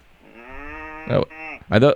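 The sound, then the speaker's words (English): Low, drawn-out mooing from Texas longhorn cattle, with two sustained harmonic calls broken by short, louder, noisy bursts. “are those cows we hear in the background, sir? Some of the finest Texas longhorns you have ever seen.”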